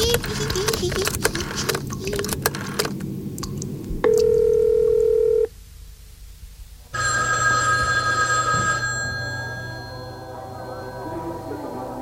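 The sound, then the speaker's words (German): A telephone gives a steady dial tone for about a second and a half, then after a short quiet gap a loud electronic ringing, all over busy background noise. “Ich rufe meinen besten Freund an, der holt mich hier raus.”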